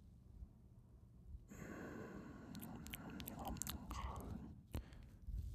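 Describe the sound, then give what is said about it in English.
Facial hair rubs against a microphone pop filter, making close, scratchy, crackling friction. It starts after a brief quiet moment and runs steadily, with a few sharper crackles. “I'm rubbing my facial hair on the pop filter.”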